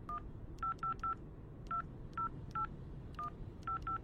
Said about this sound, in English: Quick, call Tavy. Get him on the speakerphone.